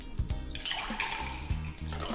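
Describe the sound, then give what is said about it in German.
Liquid splashes and gurgles steadily into a glass as Prosecco, Aperol and a dash of mineral water are poured for a Spritz, a continuous bright trickle lasting about two seconds. “Schenken Sie in einem Glas etwa doppelt so viel Prosecco wie Aperol ein und geben Sie einen Schuss Mineralwasser hinzu.”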